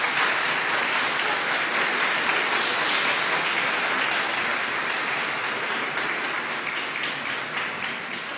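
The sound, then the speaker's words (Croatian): Audience applause welcoming a guest at a gathering for the restoration of the Cetinje seminary. Dense, steady clapping comes from many hands and tapers off slightly toward the end. “pa da ga pozdravimo jednim aplauzom”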